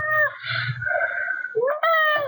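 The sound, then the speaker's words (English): A cat meows in a few drawn-out, tonal calls. The last call rises in pitch before holding steady. The calls are fairly loud and come in a quick run with no talk. “That cat is definitely vocal.”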